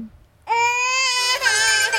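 Baby crying: after a short quiet start, an infant breaks into a loud, sustained, high-pitched wail, then a second, more wavering cry runs to the end.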